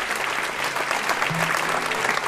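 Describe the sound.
Applause from an audience welcoming a musician, a dense, steady wash of clapping that holds at an even level for the whole stretch.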